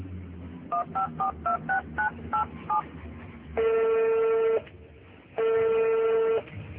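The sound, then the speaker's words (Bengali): Touch-tone beeps of a telephone number being dialed, eight short tones in a quick, slightly uneven rhythm, then two long, steady ringback tones separated by a pause. “দাঁড়াও, কাকে phone করছে?”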